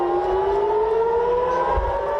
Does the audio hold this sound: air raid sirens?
yes